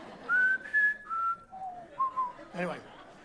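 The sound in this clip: Someone whistles the Close Encounters of the Third Kind motif: five clear, sustained notes that step up, drop, fall lower, then rise again. A brief noisy burst follows the last note.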